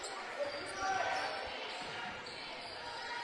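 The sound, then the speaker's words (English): A basketball is bounced in a crossover dribble at the top of the key during a game. A few soft, low thuds come through under constant crowd noise. “Crossover dribble at the top of the key from Dunn Jr.”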